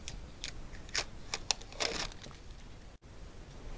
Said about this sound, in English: Now I'm going to grab my cutout, and you can see I still have the stick and burn on it, and I'm just going to peel it off.